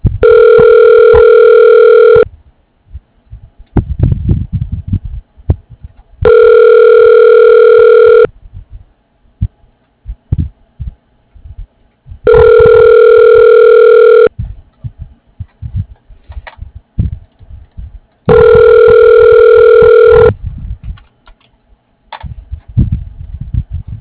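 Telephone ringback tone as an office phone system connects a call to an extension: four steady, evenly spaced buzzy rings of about two seconds each, separated by pauses with faint low rustling.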